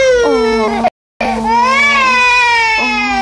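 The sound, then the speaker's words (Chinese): A hundred-day-old baby boy cries loudly in high, wavering wails, broken by a brief moment of silence before the crying resumes. “哦，不哭不哭。 怎么又哭了？”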